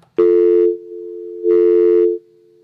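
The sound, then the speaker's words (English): Telephone tones while a call is dialled: two loud, steady beeps with a quieter continuous tone between them and fading on afterwards, all at one pitch and with no talking. “you're supposed to talk while I dial”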